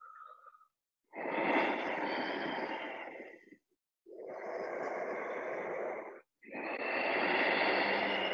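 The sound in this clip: Breathing in and out through the nose: loud, rushing nasal breaths. A brief one at the start is followed by three long, drawn-out breaths of about two seconds each, separated by short silences, with no talk.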